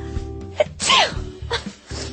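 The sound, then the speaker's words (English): A single loud sneeze from someone coming down with a cold: a sharp, breathy burst with a falling voiced tail, set among quieter short sounds. “I'm sneezing.”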